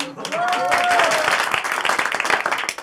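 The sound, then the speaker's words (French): Applause from an audience, a dense burst of clapping that begins full and thins toward scattered, uneven claps before fading out at the end. “Merci, je pense que cela méritait une brève ovation.”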